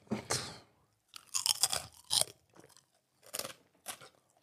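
A mouthful of food is chewed with crisp, crunchy bites in several separate bursts with short pauses between them, fairly faint and with no talk.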